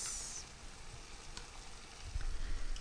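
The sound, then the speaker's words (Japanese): Drained canned tuna and water poured into a hot pan for a risotto-style dish give a sizzling, hissing sound, with a louder bubbling rumble building toward the end. “そして水分を切ったツナ缶を水と一緒に加えます。”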